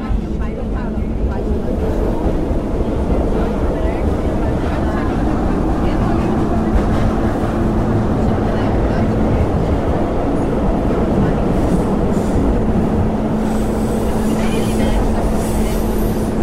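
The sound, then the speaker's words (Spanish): Subway train at a metro station on the red line 3, heard as a steady, loud low rumble with a constant hum throughout, and a recorded voice announcement over the noise. “Estação C. Acesso à linha 3 vermelha. Desembarque pelo lado esquerdo do trem.”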